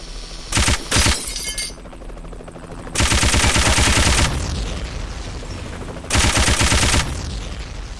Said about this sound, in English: Machine gun.